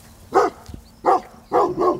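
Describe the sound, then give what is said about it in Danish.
Yips from five three-month-old Maremma guardian puppies approaching a flock of sheep. Four short, fairly high barks come alone, with the last two close together. “De 5 hundevalpe går nysgerrigt frem mod forflokken.”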